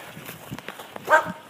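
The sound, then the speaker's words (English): Dogs bark on the other side of a fence, giving a few short, fairly faint barks over quiet outdoor background noise. One fuller bark stands out near the end. “Some dogs on the other side of the fence.”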